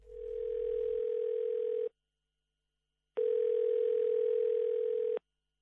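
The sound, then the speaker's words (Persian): Ringback tone of an outgoing telephone call: two long, steady mid-pitched tones, each about two seconds, separated by a silent gap of a little over a second. “من از برنامه زنده باد زندگی رادیو دری تماس میگیرم.”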